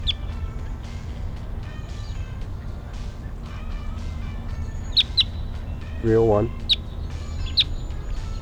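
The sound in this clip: Wild bird calls: a few sharp, high chirps scattered through the second half, with one brief, lower, clucking call in between, all faint over steady low background noise.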